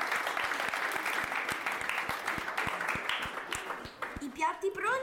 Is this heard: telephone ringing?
no